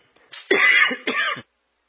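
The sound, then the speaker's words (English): A person clears their throat in two harsh, rasping bursts after a faint start, loud and alone with no talk. “I have something in my throat. I just can't get rid of it.”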